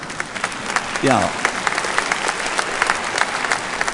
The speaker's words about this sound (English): all sinners clap at this particular point, all right?